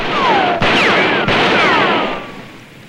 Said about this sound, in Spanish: Clyde dispara al letrero.